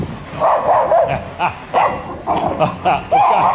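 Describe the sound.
A dog barks loudly as dog catchers come to take it from its owner: many quick, sharp barks and yelps in rapid, uneven bursts, one after another.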